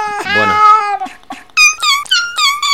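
Cat meowing in a processed recording: a long, wavering meow, then several shorter, higher-pitched calls in quick succession, loud and clear with no talk.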